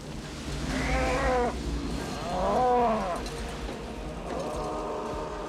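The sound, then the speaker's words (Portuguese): A cow gives two drawn-out, low, harmonic moos separated by a short gap, each rising and then fading. “eu tenho uma vaca. Outra vaca.”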